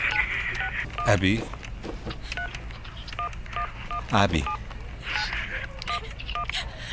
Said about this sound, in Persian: ابی دارم زنگ میزنم بابا